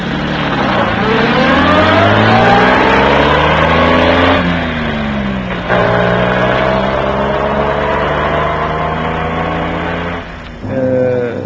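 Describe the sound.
A car engine runs loudly and steadily, its pitch dipping and rising as it revs, then briefly cuts off near the end before picking up again.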